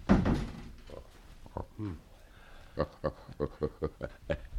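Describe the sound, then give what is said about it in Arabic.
A door shuts with a dull thud in a radio drama, followed by a run of many short, sharp metallic clicks and rattles as the bolt is worked and slid into place. “طب اخرج انت وسيبينا. اقفل الباب علينا.”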